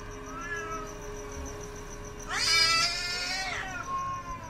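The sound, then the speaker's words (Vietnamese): A black cat's single drawn-out meow, loud and harmonic, rising and then falling in pitch, heard alone over a faint, steady background tone. “Bỗng nhiên đâu đây văng vẳng lên tiếng con mèo nó kêu, khiến cho mụ Hai giật mình choàng tỉnh.”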